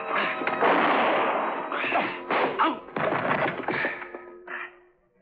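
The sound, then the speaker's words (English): Crashing and thudding as a piano bench is kicked against a man's legs during a struggle at gunpoint, a dense, loud run of clattering impacts with no talk. “I put my right heel tightly against the leg of the piano bench. And then as I felt the cold muzzle of his gun against the back of my head, I suddenly dropped to the floor, kicking the bench against his legs.”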